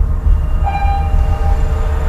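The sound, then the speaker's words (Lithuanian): A freight train runs along a railway a few dozen metres from homes beside a cargo terminal at Klaipėda port. Its loud, continuous low rumble carries a thin high tone that sounds midway through. “Maždaug kelios dešimtys metrų skiria Domarkų namus nuo krovininio geležinkelio, už kurio iškart dirba viena didžiausių Klaipėdos uosto krovinių kompanijų.”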